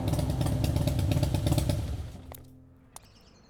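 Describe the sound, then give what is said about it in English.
A Harley-Davidson Blackline motorcycle engine on a test ride gives a loud, throbbing low rumble that holds steady, then dies away after about two seconds. Near silence follows, broken by a single sharp click. “Did you enjoy your test drive, Mr. Osmond? Oh, yeah. Loved it. Test ride your new life on a Harley-Davidson Blackline.”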